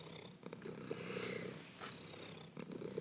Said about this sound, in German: Der schnurrt, ne? Richtige Schnurrmaschine. Wenn der auf mir drauf liegt und dann schnurrt,